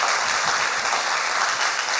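A church audience applauds: dense, steady clapping from many hands that holds at an even loudness throughout, with no voices standing out.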